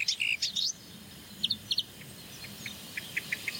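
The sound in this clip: Great tit alarm calls: a quick cluster of sharp, high chirps, then a series of short, spaced call notes, all faint over a quiet background.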